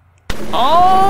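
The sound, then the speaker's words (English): A voice imitates a large explosion with falling masonry: a sudden sharp burst out of silence, followed by a sustained, voiced rumbling tone. “all of you hear a large nearby explosion, not from this building, just a the sound of like falling masonry”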